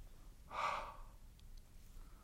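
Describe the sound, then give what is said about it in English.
A single soft breath blown onto leaves: one brief, airy exhale rising and fading within about half a second, faint against an otherwise quiet background. “Now, I take the leaves and breathe upon them.”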